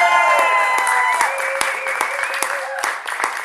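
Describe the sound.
Audience clapping at a political rally in Brenham, Texas: a dense, steady patter of many hands, with voices calling out over it.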